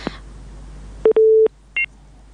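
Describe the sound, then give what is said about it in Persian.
Line tones sound as a caller's phone connection drops: a sharp click, a short beep, a longer steady mid-pitched tone, then one brief higher tone, each loud and clean against near silence. “تماس شنوندی ما محمد عارف رحیمی قطع شد”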